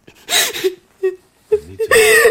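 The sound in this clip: Whimpering and crying from a person in a film scene: several breathy, wavering vocal sobs come in uneven bursts with short gaps between them, with no words spoken.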